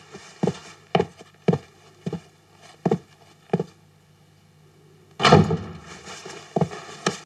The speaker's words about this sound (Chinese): 把门关上。